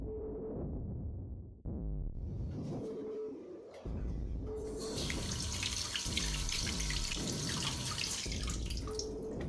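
Running tap water as an apple is washed under it: a steady splashing stream that turns brighter and hissier about halfway through, with no talk.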